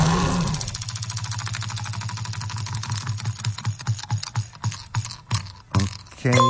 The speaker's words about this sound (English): Let's spin the wheel.